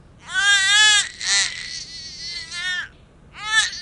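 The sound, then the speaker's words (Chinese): Infant crying in loud, high wailing bursts, a few separate cries broken by short gasping pauses. “咱别哭行不行啊？求求你别哭了！”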